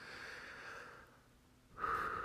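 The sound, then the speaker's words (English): Heavy breathing from a man speaking about George Floyd's death: a faint, drawn-out breath fades, then a short, louder, snort-like breath follows, with no talk. “You may hear me breathe quite a bit through this episode.”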